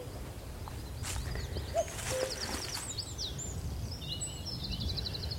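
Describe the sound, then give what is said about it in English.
Common cuckoo calling on Sugar Loaf mountain, with a single faint two-note call among the high twittering of other songbirds and a steady outdoor background hiss. “I might be able to see this cuckoo.”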